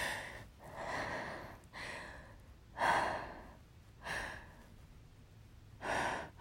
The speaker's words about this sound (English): Fuck my life. I can't, like, catch my breath.